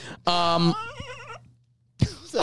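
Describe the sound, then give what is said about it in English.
A horse whinny sound effect fires from a soundboard button: a brief, bright neigh whose pitch quavers and wavers before fading, followed soon after by a short burst of sound. “It's a horse button. Hit him with the horse button.”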